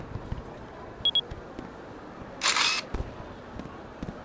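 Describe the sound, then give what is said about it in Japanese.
A camera shutter fires once while taking a photo at a fireworks outing. Two short high beeps come first, then one brief crisp burst of the shutter over a quiet background with faint ticks. “写真撮ったか？”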